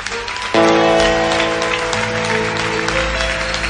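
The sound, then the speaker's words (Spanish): A crowd applauding loudly at a rock festival, a dense, steady wash of clapping that swells suddenly and holds, with sustained musical tones ringing underneath from early on. “voy a pedir un aplauso muy fuerte primero”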